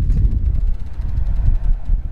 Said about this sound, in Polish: No teraz wiatr uderzył mocno.